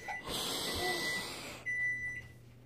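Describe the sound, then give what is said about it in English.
A microwave oven as old coffee is taken out of it: a soft rushing noise followed by a single steady electronic beep, all faint. “Now we're taking our old coffee out of the microwave.”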